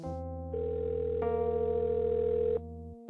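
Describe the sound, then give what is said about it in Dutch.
A telephone ringing tone while calling a friend, heard as one long, steady tone lasting about two seconds over a continuous low drone that carries on before and after it. “Ik bel mijn goede vriend Raoul de Jong op.”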